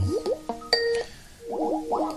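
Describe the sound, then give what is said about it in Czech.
Electronic chimes of a Skype incoming call notification play as a quick, bubbly run of bouncing tones with rising glides, fairly quiet and heard alone. “Puch. Někdo volá do systému Skypeu, ale ne ke mně.”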